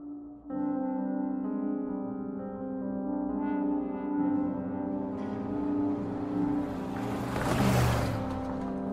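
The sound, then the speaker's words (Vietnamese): A car engine pulls away on a misty night road: a steady low drone swells into a louder, broader roar that surges near the end. “Khi xe bắt đầu lăn bánh đi, Oanh”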